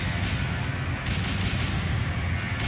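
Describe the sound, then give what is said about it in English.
Machine gun fire from enemy lines forms a dense, unbroken roar of rapid shots over deep rumbling, loud and steady throughout with no voices. “machine gun fire from enemy lines.”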